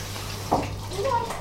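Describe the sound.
Water runs steadily from a tap while a child's face is washed, a brief soft rushing texture with a short voice sound heard over it.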